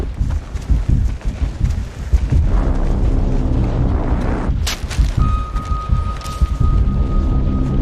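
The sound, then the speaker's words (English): Explosions from an artillery attack roll together into a loud, continuous low rumble of blasts and crackling noise, with a thin steady tone in the second half. “Artillery attack.”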